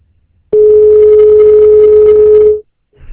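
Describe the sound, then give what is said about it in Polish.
A telephone line tone follows a dropped call: one loud, continuous, steady-pitched tone lasts about two seconds and then cuts off abruptly into near silence. “przerwało połączenie.”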